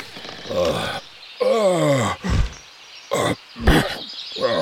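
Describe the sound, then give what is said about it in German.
A voice imitates a sabre-toothed dragon yawning and clearing its throat. A long, drawn-out groan slides downward in pitch, and several short, gruff, throaty bursts follow with pauses between them. “Da regt sich plötzlich der Säbelzahndrache. Er gähnt, räuspert sich und sagt,”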